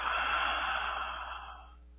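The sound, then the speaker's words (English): A long, deep breath taken during a guided healing meditation, a steady, airy rush of breath that holds for over a second and then gradually fades, heard alone without talk. “Deep breath again.”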